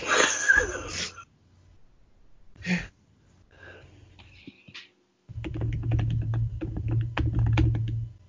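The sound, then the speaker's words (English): Typing on a computer keyboard: a quick, uneven run of many small clicking keystrokes fills the last three seconds, after a few scattered brief noises and a stretch of near silence. “I have to type this.”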